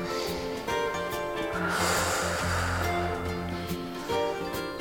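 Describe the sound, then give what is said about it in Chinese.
Slow, audible breathing in and out during a balance exercise, soft airy breaths over steady background music, with the fullest breath in the middle. “然后。呼吸四次，”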